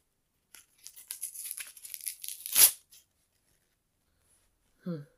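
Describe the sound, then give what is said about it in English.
Duct tape is torn off in a long, rasping rip that builds to a sharp, loud peak, followed by a brief voiced sound. “But I'll be nice and get rid of the duct tape. Hold still.”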